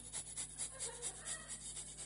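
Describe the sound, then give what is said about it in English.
A voice imitates a hedgehog sniffing through the night with a faint, rhythmic run of many quick, breathy sniffs at an even pace. “And a hedgehog kept us awake, sniffing. I think it was a hedgehog.”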